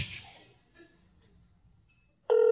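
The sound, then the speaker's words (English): A phone starts ringing near the end with a sudden loud, steady electronic tone. Before it come a couple of seconds of faint, scattered noises. “Oh, my phone's ringing.”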